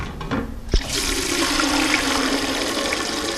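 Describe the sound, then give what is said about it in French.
Water pours from a large container into a pot outside an apartment building, for drinking and cooking: after a brief thump, a steady rushing splash runs continuously to the end, with no talk. “remplit un pot d'eau pour boire et cuisiner. Pour accomplir ce geste très simple, cette mère de 4 enfants est obligée de sortir de chez elle. Elle se sert dans un grand container en bas de son immeuble.”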